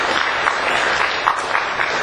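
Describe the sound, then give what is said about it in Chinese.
Audience applause at a Christian church service, given for a person coming forward for baptism: a dense, steady patter of many hands clapping that holds an even loudness throughout. “哈利路亚，第二位，给他一点掌声。”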